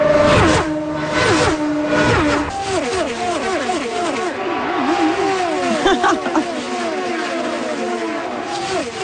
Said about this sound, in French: Ah, mais qu'est-ce? C'est la course automobile qui s'en vient dans la grande région de Toronto, à Markham